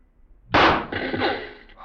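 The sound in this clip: A single rifle shot fired at a target: a sharp, loud crack followed by a rumbling tail that fades over about a second.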